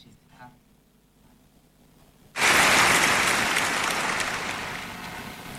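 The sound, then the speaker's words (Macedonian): Sudden burst of loud applause for Arsenal fans after a league title win. Near silence gives way abruptly to dense, hissing clapping that holds strong and then eases slightly toward the end. “Аплауз за сите оние кои што ете, навиваат за Арсенал и што имаат веќе титула со својот тим.”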